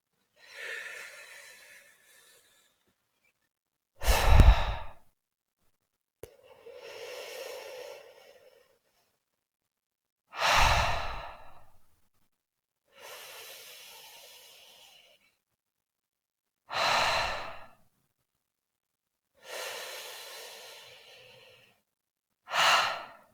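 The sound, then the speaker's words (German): Slow, deep breathing in and out during a guided meditation, about eight breath sounds spaced evenly over the stretch, alternating softer drawn breaths with sharper, louder exhales, with no talking. “Die Unruhe ausatmen, rotes Licht und Freude einatmen.”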